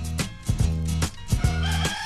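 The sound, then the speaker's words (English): A rooster crows loudly in repeated, drawn-out calls with a strong harmonic tone, heard as part of an early-morning wake-up sound. “A little bit of a rooster in the background.”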